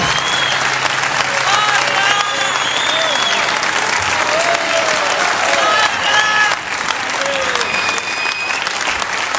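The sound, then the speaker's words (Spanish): An audience applauds singers at a folk music event, a dense, steady clapping that holds at full strength throughout, with some voices audible through it. “Fuerte el aplauso para estos cantores. Bien fuerte, bien fuerte.”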